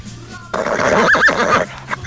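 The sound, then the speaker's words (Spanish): A horse whinnies in one loud, shaky burst lasting about a second, its trembling tone tapering off before a short quieter pause. “Sí, básicamente sería un caballo con alguna que otra deficiencia.”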